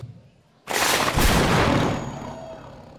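A gunshot sound effect cracks out as a single sudden blast, followed by a roaring burst that holds for about a second and then slowly dies away.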